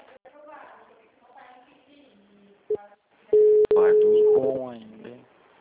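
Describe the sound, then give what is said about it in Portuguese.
Phone call tones on an unanswered call: a short tone blip, then a longer steady tone broken by a sharp click, with people talking before, over and after it. “Tentando ligar, não atendeu.”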